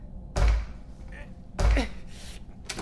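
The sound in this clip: A heavy, stuck door is pushed but will not open, giving two loud, deep thuds about a second apart, followed by a lighter knock.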